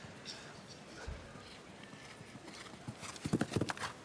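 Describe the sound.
Horse hooves clip-clop during a show jumping round: a few sharp hoofbeats cluster near the end, loudest there, under continuous commentary from a man's voice.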